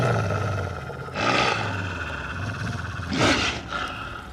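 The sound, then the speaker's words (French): Two wolves snarl and bare their fangs, giving two loud, rough growling bursts over a continuous low rumble. “Les loups montrent les crocs.”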